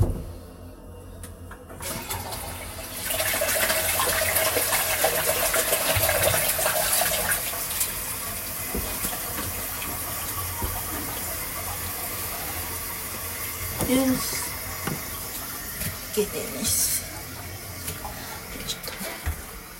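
Water being poured away down a drain: a steady rushing gush that continues for about twenty seconds, with a few louder splashes and gurgles near the end.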